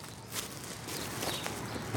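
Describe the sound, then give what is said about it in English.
Running footsteps as Super Grover takes a running start: a continuous scuffling patter of steps within a noisy, hissy wash, with no voices. “Maybe if I just take a bit of a running start.”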